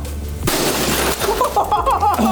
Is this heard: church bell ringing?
no